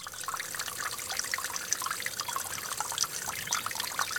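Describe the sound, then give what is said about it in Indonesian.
Water sprays steadily while flowers are being watered, a soft, continuous hissing trickle with small splashy flickers. It stays faint and even throughout, with no voices. “Tapi airnya jangan disemprot kemana-mana ya”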